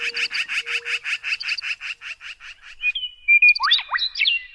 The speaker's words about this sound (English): From a canyon in the west, where western meadowlarks sing, morning doves call, black-billed magpies chatter,